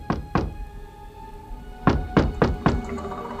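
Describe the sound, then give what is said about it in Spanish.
Knocking on the door of a rural house in the Spanish countryside: two dull thuds, a pause, then four more evenly spaced knocks, heard alone. “A veces ocurría que alguien llamaba a la puerta.”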